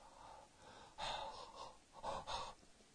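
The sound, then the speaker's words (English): Breath exhaled with no speech: a few soft, airy bursts of breathy noise, a faint one first and then louder, longer ones that swell and fade with short pauses between. “Breath is what comes out of me. I breathe all the time, but I don't speak. If I just come to you and start going,”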